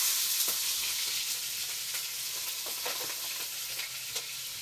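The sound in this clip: Food sizzles while frying in a pan as it is flipped to get a crisp outside before slow cooking. The crackle is steady and fairly quiet, with a few sharper pops standing out.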